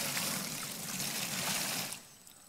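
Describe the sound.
Water poured over a model house to act as a flood gives a steady, hissing rush for about two seconds, then cuts off abruptly and leaves near quiet.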